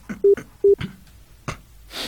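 Telephone keypad dialing tones: two short, evenly pitched beeps, each framed by soft button clicks. A faint hiss follows at the end.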